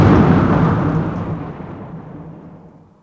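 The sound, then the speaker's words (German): Thunder as a violent thunderstorm breaks out: one loud, broad rumbling crash at the start that fades steadily over about three seconds, with no voices. “Ein ungeheuerliches Gewitter brach los”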